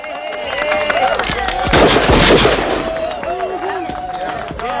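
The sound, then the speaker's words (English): Gunshots fired into the air from handguns in a film scene: a cluster of sharp, loud cracks in the middle, set among voices. “Then Herod walks away and fires his guns up into the air.”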